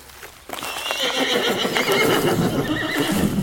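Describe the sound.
A horse neighs loudly at the stables, a long, shrill whinny that bursts in after half a second of quiet and carries on strongly to the end.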